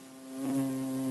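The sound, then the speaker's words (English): A bumblebee buzzes in a brief, steady, low-pitched drone rich in overtones, swelling slightly in loudness partway through, with no other sounds. “Yet another question that came into the show has to do with bumblebees, which sound like this.”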